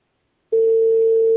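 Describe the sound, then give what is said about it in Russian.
A telephone ringback tone plays while a call is being connected and goes unanswered. After a short silence, a steady, loud, low-pitched single tone begins and holds unbroken to the end. “Так я соединяю сейчас. Они трубку не берут.”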